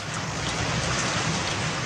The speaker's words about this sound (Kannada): ಮೋಡಗಳು ಒಟ್ಟುಗೂಡಿ ಗುಡುಗು ಮಿಂಚು ಸಹಿತವಾದ ಮಳೆ ಭೂಮ್ಯಾಕಾಶಗಳನ್ನು ಏಕಗೊಳಿಸುವಂತೆ ಸುರಿಯಲಾರಂಭಿಸಿತು